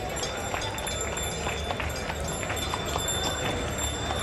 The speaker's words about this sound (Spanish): La carreta Sin Pecado de la hermandad de Puerto Real, ya llegando a la Capilla del Carmen.